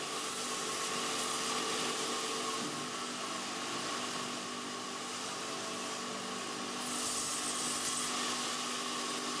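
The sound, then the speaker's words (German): A saw cuts well-seasoned wood into blocks for making wooden clogs, giving a steady, loud, continuous rasping whine that holds evenly throughout with no clear breaks. “Zunächst müssen aus dem gut abgelagerten Holz Stücke in die richtige Größe und Form gesägt werden.”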